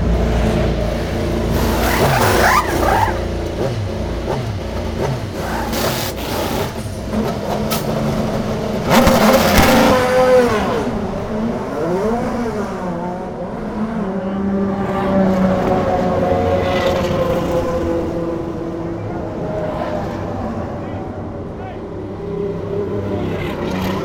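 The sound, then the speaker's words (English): Chevy and Honda race car engines rev hard to about 12,000 RPM during launches in pit lane, a loud, rasping mid-pitched roar whose tone climbs and drops in repeated surges, with sharper bursts along the way. “Next, we head to pit lane for some rapid pit stops and also some maximum RPM launches from the Chevy and Hondas cracking on at about 12,000 RPMs.”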